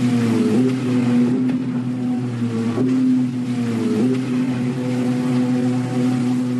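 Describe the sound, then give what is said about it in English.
Jet skis out at a beach rumble with a steady, droning engine hum that continues throughout at a loud, even level, the tone wavering slightly now and then, with no voices. “I've also been talking about jet skis as well. You know that sound that rumbles through the air? Maybe it drives you a little bit nuts hearing this go round and round.”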